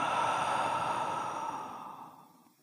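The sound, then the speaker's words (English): A slow, deep breath, airy and steady, heard alone with no talk, stays full for about a second and a half and then gradually fades away. “Let's do that again. Breathe in and out.”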